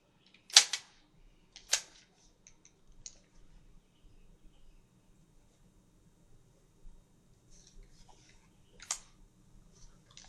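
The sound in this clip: Sharp mechanical clicks from a tape recorder's buttons before rewinding a tape: a few crisp, separated clicks with near-silence between them.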